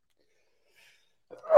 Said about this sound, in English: I just thought I'd sneeze right before we did.